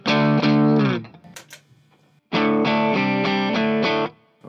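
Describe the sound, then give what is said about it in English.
Electric guitar played through a boosted overdrive pedal with the pedal's output volume turned down. One strummed chord rings and fades, a brief quiet gap follows, then a series of repeated driven strums sustains before cutting off. “So you could turn the pedal volume down. So you've got a hotter signal going into it. You could turn the pedal volume down. Let's try that.”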